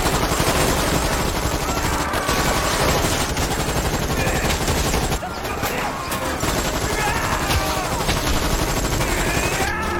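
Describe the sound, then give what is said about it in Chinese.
Heavy gunfire in a film scene, a man shooting wildly at civilians. A long, dense, loud barrage of shots continues almost without pause, with one brief dip midway. “气急败坏的他竟然拿着枪无脑射击那些平民。”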